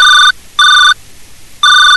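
A telephone rings in loud electronic bursts, each a bright, steady, multi-tone trill. Three regularly spaced bursts, the first already underway at the start, separated by short silences.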